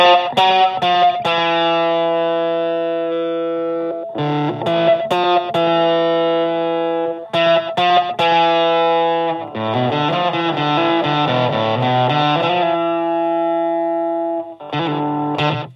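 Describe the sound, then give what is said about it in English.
Electric guitar through a Tech21 Fly Rig 5 with the plexi drive on and the guitar's tone knob rolled back, playing loud sustained distorted chords and riffs rich in harmonics, broken by a few short gaps. “Here's where the tone of the guitar comes in, because we can back down on that tone knob.”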